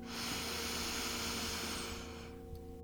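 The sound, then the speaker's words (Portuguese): A long, deep breath drawn in as a loud, airy hiss that holds steady for about two seconds before cutting off into near quiet. “Inspira profundamente, honra esta libertação.”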